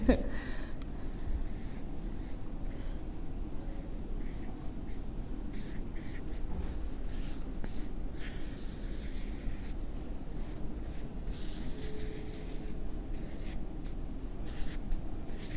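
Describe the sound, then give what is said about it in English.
Quick scratchy strokes of someone drawing a simple picture of a seed and a sapling by hand during a talk. Many strokes continue throughout at a low level, with audible breathing. “So in identifying, I'm going to draw a picture. And don't laugh at my drawing skills.”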